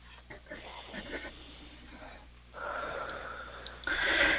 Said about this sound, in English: And take a nice deep breath.